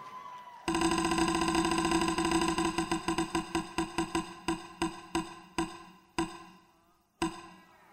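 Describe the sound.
A prize wheel spinning: a low hum, then a sudden burst of rapid ratcheting clicks that gradually slow, the gaps widening until a few last isolated clicks as the wheel comes to rest.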